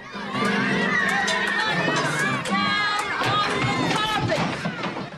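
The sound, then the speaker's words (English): A dozen or so children run riot in a classroom, their high-pitched shouts and shrieks overlapping in loud, continuous chaos, with running feet under the voices. “Inside, a dozen or so children run riot.”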